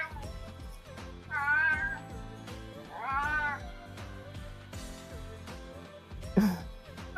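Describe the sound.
Pet cat Futa meows in complaint: two drawn-out, wavering meows and a shorter, lower one near the end, heard over a constant tonal background hum.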